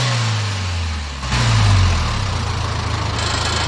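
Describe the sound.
A car engine revs during an exhaust emissions test at a roadside vehicle check. A low idle jumps to a loud rev, then eases back into a steady rumble.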